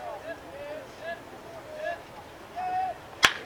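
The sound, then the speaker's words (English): One sharp crack of a bat meeting the ball on a 1-2 count in a college baseball game, sending a ground ball back to the pitcher, sounding near the end after quiet background voices. “Now Thomas will swing away, 1-2.”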